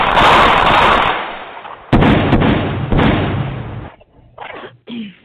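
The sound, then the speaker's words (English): Gunshot sound effect: a few loud, harsh bursts of noise with rough, sustained tails, followed by fainter short sounds near the end. “Gunshot.”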